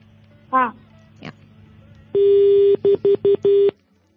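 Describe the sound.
A telephone call disconnects and a busy tone follows: one longer steady beep, then four short beeps in quick succession. Two brief vocal sounds come before the tones.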